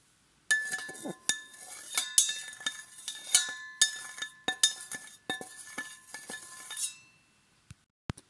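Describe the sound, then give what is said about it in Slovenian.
Pots being cleaned in a castle kitchen give off many sharp, irregular metallic clinks and clatters for several seconds. After a pause, a few isolated clinks follow. “In se odpravi čistit po gradu. Očisti v kuhinji lonce,”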